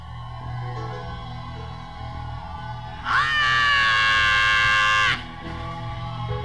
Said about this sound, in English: I want to give God one long shout of praise.